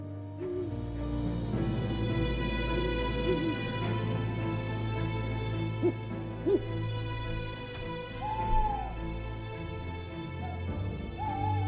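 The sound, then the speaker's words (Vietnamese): An eared owl hooting again and again at night: soft, low hoots recur at intervals over a steady droning background hum, with no voices. “Đâu đó ở ngoài kia có tiếng con cú mèo cứ rúc lên từng hồi.”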